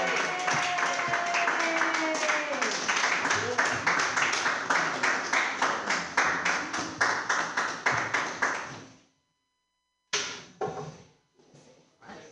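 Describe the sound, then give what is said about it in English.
An audience at a comedy show applauds the first comedy team with dense, steady clapping for several seconds that tapers off, then a short burst after a brief pause. “But put your hands together for your first team, everybody.”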